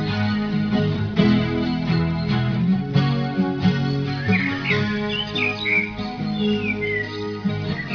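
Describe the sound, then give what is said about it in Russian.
Bird calls chirp and whistle over steady music, a few high, quick sliding notes rising above the dense instrumental bed in the second half. “И не сказать, не выразить, не молвить, лишь птица что-то крикнет и замрет,”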